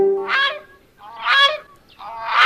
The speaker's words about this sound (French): C'est ainsi que chante la grue couronnée.